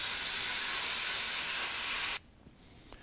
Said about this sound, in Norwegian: her skjærer du jo typisk ut en flensi fra en 20 mm stålplate, det går ganske greit